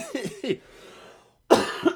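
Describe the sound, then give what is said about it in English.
A lingering cough from a cold shows up as a harsh, loud burst of coughing at the end, after a few short vocal sounds and a brief moment of silence. “I'm still trying to get over this cough from last week's episode. So if I cough, I apologize.”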